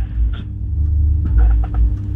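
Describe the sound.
A new machine being tested gives off a steady low hum and rumble that drones without a break, with a few faint clicks and rattles over it.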